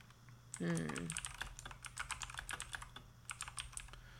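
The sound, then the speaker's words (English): Rapid typing on a computer keyboard: many sharp key clicks in an uneven, continuous patter over a low steady hum, with a brief voice sound near the start. “Here we go. I'm just going to type it in.”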